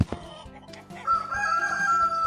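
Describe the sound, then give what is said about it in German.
Hens clucking in a henhouse on a farm, many birds close together: repeated short throaty clucks, then a longer drawn-out call that holds steady toward the end. “Und jetzt sitze ich hier im Hühnerstall bei meiner Oma. Hier gackert es, dort raschelt Stroh und neben mir sind ganz viele Hühner.”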